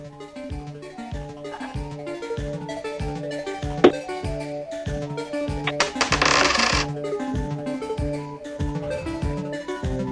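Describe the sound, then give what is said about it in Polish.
A coin tossed during a Polish radio game gives a single sharp metallic ping, then a brief rattling clatter, all over steady rhythmic background music. “Uwaga, rzucam monetą.”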